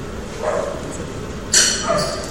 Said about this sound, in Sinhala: බල්ලෙක් බුරනවා නේද කොහෙ ඉන්න බල්ලද බුරන්නේ